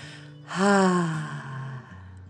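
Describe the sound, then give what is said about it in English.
A single long voiced breath out through the mouth, part of a children's guided relaxation exercise. It sounds like a soft sigh that rises in loudness and then slowly trails away, with a gently falling tone and no talk. “One last breath in and feel your tummy getting bigger. One, two, three, and breathe out through your mouth.”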